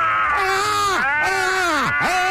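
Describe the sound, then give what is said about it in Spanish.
Two people screaming in frustration over an injustice in football, with strained, drawn-out cries whose pitch swoops downward at the end of each burst. “Vamos a gritar los dos para desahogarnos, sí, por esta injusticia. ¡Gritemos!”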